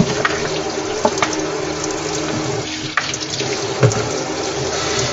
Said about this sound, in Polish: Umyję tylko zlew tutaj, bo jest taki trochę obciapany teraz przeze mnie.